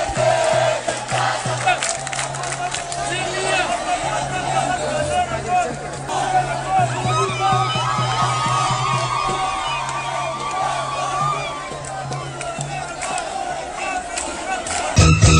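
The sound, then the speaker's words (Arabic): Protesters chant and shout outside the Council of Ministers, a dense crowd demanding the trial of former regime figures, their massed voices loud and sustained without pause. “وكان هتاف المحتجين أمام مجلس الوزراء”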